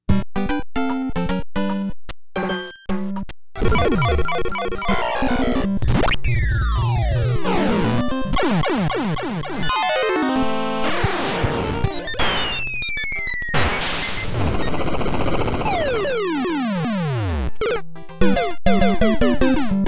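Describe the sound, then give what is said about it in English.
Eight-bit video game death sound effects play one after another as a continuous, loud stream of harsh electronic bleeps, buzzes and crashes, with several sweeping pitch slides among them, mostly falling. “So, how could you represent dying in so many different games? Well, here are some of the sound effects they came up with for digital death.”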